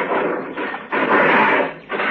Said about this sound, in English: Oh, look at the door. What's the matter with it? I think the lock's broken. Yeah, you're right. Why don't we take a look inside? All right. Yeah, the lock's all rusted through.